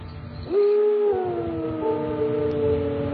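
A dog howls outside at night, a long sustained wailing tone that swells in at the start and holds steady for a few seconds over a low background hum.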